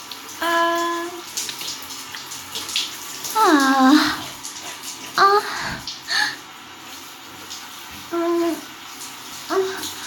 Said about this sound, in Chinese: 帮我洗吧，我好好洗啊！哎，你别说，别人帮你洗澡的感觉还挺舒服的